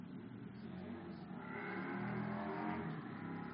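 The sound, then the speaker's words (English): A motorbike going past, its engine a steady low drone that swells to its loudest in the middle and eases slightly toward the end, with no voices. “Just let that bike go past, shall we?”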